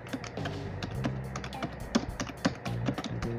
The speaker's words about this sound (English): I'm gonna type in recent conspiracy theories.